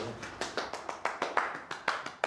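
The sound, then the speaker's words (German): Applause for the readers after a children's read-aloud session: many sharp hand claps in a fairly even, rhythmic run, crisp and bright, with no voices over them. “Ein Applaus für die Vorleser.”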